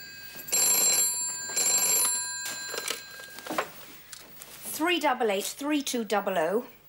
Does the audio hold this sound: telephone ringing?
yes